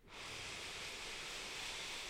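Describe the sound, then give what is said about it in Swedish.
A deep breath drawn in through the nose, heard as a soft, steady airy hiss that swells in quickly and holds for about two seconds, with nothing else around it. “Och ta ett djupt andetag in genom näsan. Fyll upp bröstkorgen och hela magen med ny luft, ny energi.”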